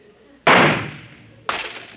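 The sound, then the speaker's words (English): Two sharp, loud gunshots about a second apart, each followed by a bright, ringing decay as glasses on a top shelf are shot off. “I bet you five dollars I can shoot those three glasses off the top shelf in three shots.”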